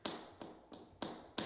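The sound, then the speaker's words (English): Tap shoes strike the floor as January Jones freestyle tap dances, five sharp, crisp clicks at slightly uneven intervals, quiet and alone. “Okay, what you're hearing is the sound of January Jones kind of freestyle tap dancing.”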